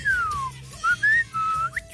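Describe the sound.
A person whistling a short phrase: a long tone gliding downward, then a few shorter, higher notes in quick succession, clear and fairly loud.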